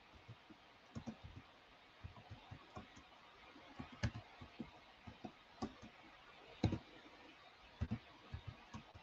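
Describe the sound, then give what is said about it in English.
Keys being typed as a date is entered into a computer, many faint, irregular clicks and taps with no talk. “There, I'll type it in. April 6th.”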